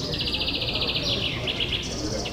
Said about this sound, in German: Die Vögel zwitschern nicht irgendwo in der Ferne, sondern dicht am Ohr.